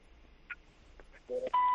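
Telephone line tones as a caller is connected to a radio phone-in show: a short two-tone burst, then a sustained steady tone that runs to the end, following near-silence.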